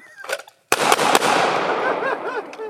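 Gunshots from a shooting drill: a few sharp, loud cracks in quick succession, each leaving a noisy, ringing wash that slowly fades.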